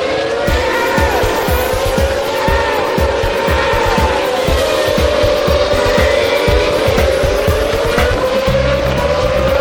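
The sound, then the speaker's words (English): GP2 race cars at the first corner of the Spa circuit, with loud, continuous engine whine and tire squeal as the pack goes through. A sustained roar holds at a steady level throughout, with shifting engine pitches layered over one another. “The sound of GP2 cars failing to avoid each other on most occasions.”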